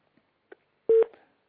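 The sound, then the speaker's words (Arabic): A telephone line disconnects during a call-in. A few faint clicks are followed by one short, loud tone burst that quickly trails off. “انقطع اتصال محمد من دبي”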